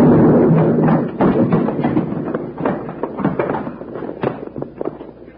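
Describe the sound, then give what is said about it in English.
A loud dynamite blast sound effect from a radio western drama, with the dynamite thrown on a stairway and wrecking it. It opens with a heavy rumbling burst, then continues as many scattered thuds, crackles and clattering crashes. “Dynamite with a short fuse burning. He's throwing it. Get out, Bill.”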